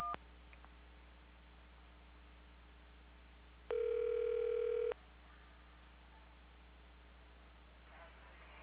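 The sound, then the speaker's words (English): Phone keypad tone from pressing 1 on an automated phone menu, a single steady electronic tone lasting about a second on an otherwise quiet line. “For all other inquiries, press 1 to continue.”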